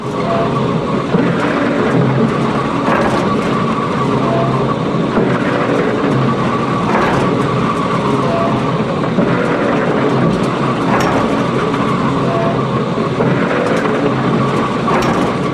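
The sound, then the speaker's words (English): Mechanical droning of a pump at an oil well: a steady, dense churning noise that runs continuously, with faint regular pulses recurring every couple of seconds. “A pump at an oil well.”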